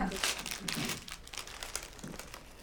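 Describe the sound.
Plastic packaging crinkles and crackles as a naloxone kit is opened, a busy run of sharp rustling that is loudest early on, with a voice at moments.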